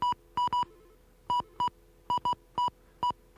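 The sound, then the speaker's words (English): Telephone keypad tones dialing a number that begins with 9: ten short, pure dual-tone beeps in an uneven rhythm, some in quick pairs and others spaced apart, over a faint steady hum, with no talking. “Okay, let's do this. Dial 9 and”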